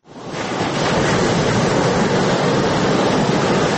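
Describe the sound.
The Arghandab river flows with a dense, steady rushing roar of water that swells in quickly at the start, then holds loud and unbroken throughout.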